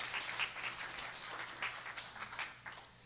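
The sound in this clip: Audience applause welcoming a speaker to the stage: steady, dense clapping from a crowd that stays fairly soft and even throughout, with no voices over it.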